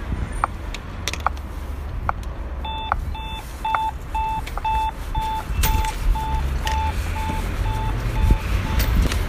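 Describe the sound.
A pedestrian traffic light's acoustic signal beeps at a crossing on Danziger Straße. Many evenly spaced, mid-pitched beeps repeat over steady street traffic noise, with scattered clicks and clatter around them.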